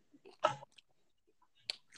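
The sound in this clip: Crunchy chewing of cheese sticks: a few short, soft bursts of crisp mastication separated by near-silence, quiet overall.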